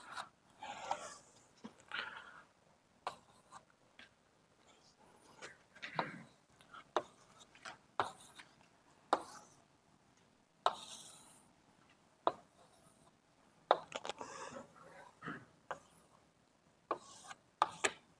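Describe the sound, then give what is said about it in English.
Drawing a diagram of a two-dimensional manifold: many short, scratchy strokes and taps in an irregular rhythm, quiet, coming in bursts separated by short pauses. “So let me draw it like this.”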